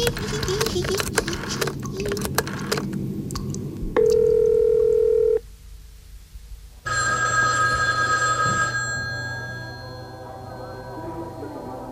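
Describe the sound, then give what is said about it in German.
A telephone call in progress: a run of dialing clicks, then a steady tone, then after a short pause a bright electronic ring that fades away. “Welches blöde Watzenschwein ruft hier mitten beim Training an?”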